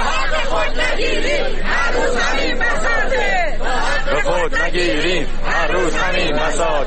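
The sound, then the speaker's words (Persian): Retired social security pensioners chant slogans at a protest in Yazd, a loud mass of voices calling out rhythmic phrases in repeated bursts that continue without pause. “بازنشستگان تامین اجتماعی در یزد هم شعار دادند. شعارهای دیگری که هم در اصفهان داده شد.”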